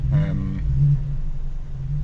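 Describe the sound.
Engine rumble of cars filing past on a road through the centre of a wildlife park. A low, steady drone holds throughout, with a brief voice over the opening moments.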